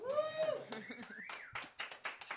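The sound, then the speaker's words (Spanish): Audience applause, a few scattered hand claps in an irregular rhythm, faint, with a voice briefly heard at the start. “Un aplauso para Andrea, por favor.”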